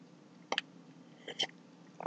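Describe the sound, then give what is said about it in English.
Coffee being sipped close up, a few brief slurping and swallowing sounds with small clicks, quiet and separated by short pauses, with no speech. “Excuse me. Let me grab a sip of coffee here.”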